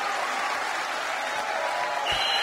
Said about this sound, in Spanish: Un aplauso fuerte.